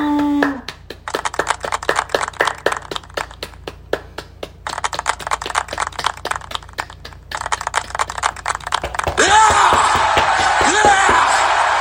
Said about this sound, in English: Round of applause for all the graduates.